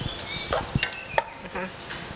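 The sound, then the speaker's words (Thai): Pork sizzles as it is stir-fried in a pan with a little water added, with soft, quiet frying hiss broken by a few scraping clicks from stirring. “อาจจะเติมน้ำในการลวนได้นะคะนี่ใส่น้ำไปเล็กน้อยนะคะหมูจะได้ไม่แห้ง”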